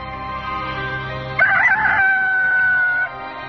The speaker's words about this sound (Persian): پتروس باز انکار کرد که در حال خروس با زد